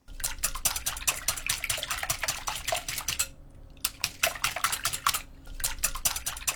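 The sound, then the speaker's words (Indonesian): A whisk beats eggs and sugar in a bowl, giving fast, steady metallic clicking and scraping, with two short pauses before the rapid strokes resume. “tambahkan 50 gram gula, kemudian kocok hingga menyatu dengan kocokan telurnya.”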